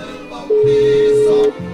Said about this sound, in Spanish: Vamos a ver si tenemos oportunidad de que nos reciba la llamada la tía.